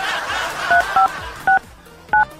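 Telephone keypad dialing tones, a few short, bright electronic beeps spaced unevenly over a low, murky background. The last tone is slightly longer than the others.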